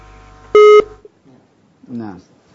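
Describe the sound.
A loud electronic telephone tone sounds once after a dropped call: a short, steady, harmonic burst that stops abruptly. Faint sounds follow, then a brief stretch of talk.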